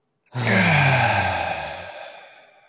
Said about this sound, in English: And on the count of three, let it out with an exhale. One more time. One, two, three.